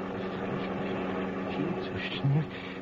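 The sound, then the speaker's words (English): A car engine runs with a steady, rumbling drone of low harmonics that stays at an even level, with a brief louder low tone near the end. “The motor's slowing up.”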